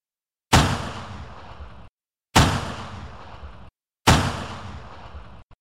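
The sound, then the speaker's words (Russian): Three single rifle shots ring out, each a loud, sharp crack followed by a long decaying tail, evenly spaced about two seconds apart with silence between them. “До меня донеслись 3 хлопка одиночных винтовочных выстрелов.”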